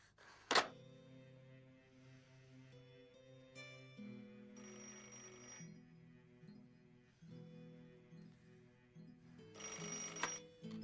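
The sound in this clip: A telephone rings in a few separate bursts of bright, trilling tone, the first sharp and loud, the later ones longer and steady, over a faint background hum.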